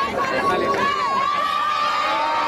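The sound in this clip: Crowd cheering during the papal visit of Pope Leo XIV and the popemobile, many excited voices shouting together in a continuous, lively swell.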